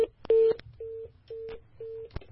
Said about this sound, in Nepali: हजुर फेरि पनि फोन काटिएको छ